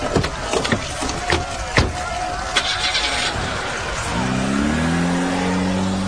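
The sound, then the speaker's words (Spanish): A car engine starts and revs hard as the car drives off, its loud roar rising in pitch over the last two seconds, after a few sharp knocks and thumps. “¡Suban al auto! Yo conduciré.”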